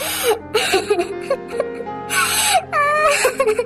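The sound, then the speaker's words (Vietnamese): A servant boy sobs in panic, letting out a few high, unsteady wailing and whimpering bursts broken by sharp gasping breaths. The cries come in uneven spurts with short pauses between them. “Nó bật lên khóc hu hu trong sự hoảng hốt.”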